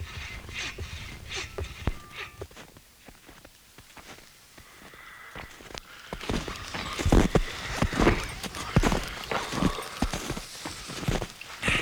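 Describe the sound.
Footsteps walking down into a cellar, irregular knocking steps with scuffs between them, quieter at first and then louder and more frequent in the second half.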